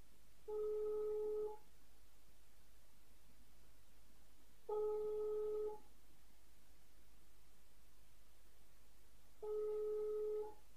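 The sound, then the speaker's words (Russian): Ringback tone on a phone call to a number from an advertisement while waiting for an answer. Three steady, one-second tone bursts at an even pitch, evenly spaced, heard alone. “Пробуем звониться по объявлению, пока не берут трубку.”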